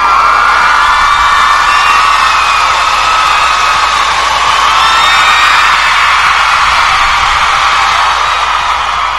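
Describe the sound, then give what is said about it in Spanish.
Loud audience cheering and whooping at an anime karaoke contest after a singer's guitar performance, a steady wall of crowd noise with shrill yells rising above it throughout. “Un fuerte aplauso, por favor.”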